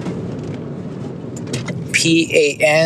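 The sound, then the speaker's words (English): A car's interior hum while driving, a low steady rumble, with a voice starting to talk over it near the end. “I'm sorry, I'm kind of driving while making this recording, but you probably already knew that.”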